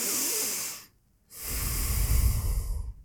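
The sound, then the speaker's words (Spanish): Nasal breathing: a deliberate cycle of inhaling and exhaling through the nose, heard as two long, airy, hissing breaths separated by a short silent pause, the second breath fuller and rougher. “Eso que acabo de hacer por la nariz es un ciclo de inhalación y exhalación por la nariz.”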